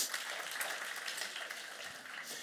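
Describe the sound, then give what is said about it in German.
Applause from an audience at a church gathering: a dense, steady patter of many hands clapping that stays fairly even in loudness for the whole stretch. “Applaus. Super.”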